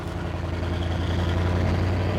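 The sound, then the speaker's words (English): Engine rumble of vehicles pulling away and heading off across a valley: a continuous low, heavy drone that builds slightly in loudness, with no talk over it. “They get back in their vehicles and pull away, heading off in different directions across the valley.”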